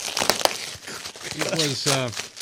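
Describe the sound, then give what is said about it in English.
Packaging crinkles and tears as a boxed F-22 model is unwrapped, with a few sharp crackles early on and a voice talking over the rustling. “I said unwrap. I'm going to unwrap it.”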